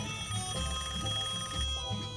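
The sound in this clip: A telephone rings with an incoming call, a steady electronic ring in repeating pulses, heard alone without talk.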